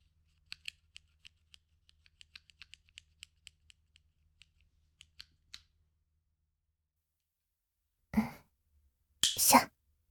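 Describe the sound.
Fingernails are snipped with clippers, producing many small, sharp clicks at an irregular pace with brief quiet gaps between them. Near the end come two short, breathy noise bursts.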